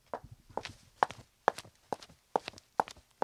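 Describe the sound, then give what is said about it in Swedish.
Footsteps of low-heeled snakeskin shoes with dull-sounding heels walk on asphalt in a steady, even rhythm, many crisp taps with each step landing as a quick doubled heel-and-sole contact. “För ormskinnsskor, de tycker jag låter väldigt bra. De har inte så, de har ganska dovt klackar. Jag kan dra på mig dem, får vi, om jag hittar den andra. Ja, där. Om vi går i de här då på asfalt till exempel.”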